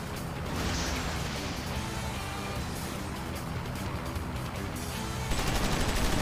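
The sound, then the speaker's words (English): Continuous machine-gun fire from a vehicle combat video game, a dense, rapid, steady rattle that stays loud throughout and grows a little louder near the end. “I got weapons lock on Mad Machine, except for by weapons lock, I mean I have machine guns, which don't lock on.”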